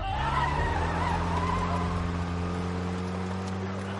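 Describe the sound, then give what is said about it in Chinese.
A car speeds off in a hurry, its engine a steady, loud, low drone with a constant hum and no break or pause throughout. “快开车，快点开车。”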